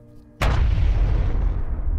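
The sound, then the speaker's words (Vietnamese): A loud explosion boom bursts out suddenly after a near-silent moment, followed by a heavy, low rumble that rolls on and slowly fades. “Một tiếng nổ bùm to đến độ muốn rung chuyển cả lòng đất.”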